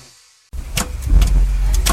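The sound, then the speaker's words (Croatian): A car engine with a fault, knocking, rattling and shaking as it runs rough. A deep, loud rumble cuts in abruptly after near silence, with a few sharp rattling knocks over it. “Opet lupka, treska, vergla, još mi treba izmjena guma.”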